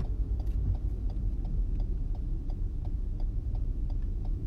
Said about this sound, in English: here I go driving the wrong way down a one-way street, and meanwhile they have unblocked the alley on the other end, so now their car is kind of coming my way.